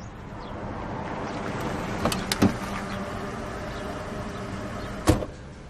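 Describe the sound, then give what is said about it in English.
A car being entered and driven off: a steady low rumble throughout, with a few sharp clicks around the middle and a firm thump near the end, and no talk. “Get in, let's go. You get behind the wheel. Yeah, let me get in.”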